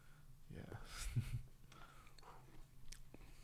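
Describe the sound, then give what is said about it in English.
Crunchy chewing of Lime and Jalapeño Ruffles potato chips: a few crisp bites, loudest near the middle, followed by quieter mastication. “Dude, you gotta stop eating. Those are good chips. I know they are. They taste great. Lime and jalapeno ruffles”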